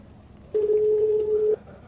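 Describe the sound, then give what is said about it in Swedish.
One steady telephone tone, clear and mid-pitched, lasts about a second as a man is rung up, then cuts off. A faint low background hum runs before and after it. “jag beslutar mig för att ringa upp honom för att få reda på vad det här kan handla om”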